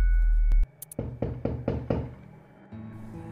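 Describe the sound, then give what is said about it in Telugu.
Knocking on a house door: a quick, even run of sharp knocks, loud and distinct, following an abrupt stop of a low hum, with no voices. “శ్వేత ఇంటి door knock అవుతూ ఉంది”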